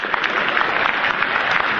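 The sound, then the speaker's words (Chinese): An audience at a live comedy stage show breaks into loud, dense applause, many hands clapping steadily and evenly throughout with no voices on top. “请首先为我鼓掌，掌声鼓起来。”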